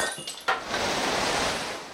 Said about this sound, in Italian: È in arrivo un messaggio nella bottiglia per Barbara Alberti.